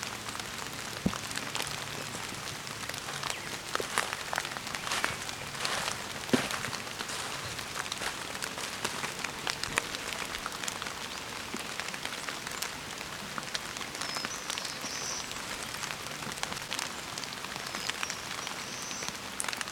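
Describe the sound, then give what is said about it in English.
Steady rain falls, a dense, soft patter of drops and spatters that stays fairly even and faint throughout. “Rain is letting up a little bit.”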